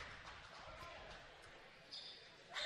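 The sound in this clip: A basketball dribbled on a gym floor during a Cardinals versus Chippewa game, with a few faint bounces under a voice talking throughout.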